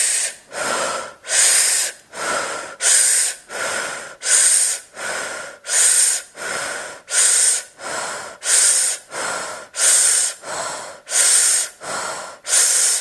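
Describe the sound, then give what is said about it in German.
Rapid breathing through an open mouth in a quick, steady rhythm: many even, airy breaths follow one another at a brisk tempo, with no talking. “in ein paar schnellere Atemzüge durch den Mund hinein. Das heißt, du kannst den Mund öffnen und mal wirklich in einem recht zügigen Takt”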